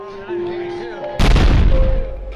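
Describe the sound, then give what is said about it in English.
A bomb explosion near the finish line of the Boston Marathon on Boylston Street, a single sudden heavy boom followed by a loud rumbling roar that slowly fades, cutting in over voices. “Howard Mays, Demi Clark, Mary Jenkins, Volker Fischer, and Brian Donovan crossed the finish line just as the first bomb exploded on Boylston Street.”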